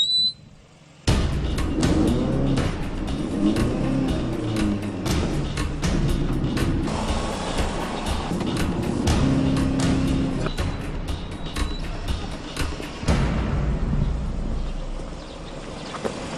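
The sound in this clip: A car accelerates with the gas pedal pressed hard during a speed test over a short stretch of road, a loud, sustained engine and road roar that starts abruptly after a brief quiet opening and holds steady to the end.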